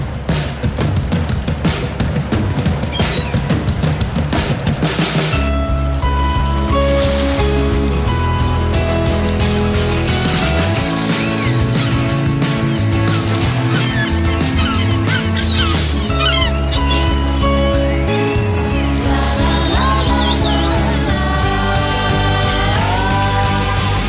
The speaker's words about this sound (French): Est-ce que les oiseaux et l'eau sont de trop là-dessus? C'est à toi de me le dire. Ils sont comme forts, hein?